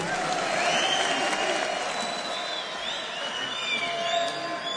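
Loud, sustained applause from a large yeshiva crowd for a singer at a Sukkot concert in Jerusalem, with cheering and whistles mixed into the steady clapping throughout.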